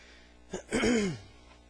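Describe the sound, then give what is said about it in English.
Someone with something stuck in the throat clears it: a short rough burst, then a faint voiced grunt that slides downward in pitch. “I got something in my throat this morning, trying to get that clear, and it's not working.”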